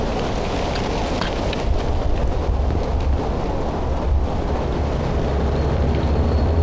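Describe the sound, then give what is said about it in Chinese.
Heavy artillery shells city walls and bunker clusters in a dense, continuous roar of blasts and low rumble. It stays loud throughout, with no clear gaps between impacts. “第一二炮群正在向城南偏西和城南中部发起猛烈炮击，第三炮群目标城东偏北方向，现正在对城墙中部和碉堡群进行集中摧毁。”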